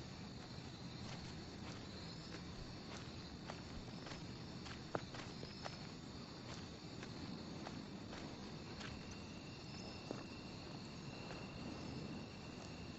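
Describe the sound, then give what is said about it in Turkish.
Unsteady, staggering footsteps of a drunk man walking with a rifle slung on his back, many soft, uneven steps crunching along at a steady loudness while insects chirp continuously in the background. “sırtında tüfekle dengesiz bir halde sallanarak yürüyor.”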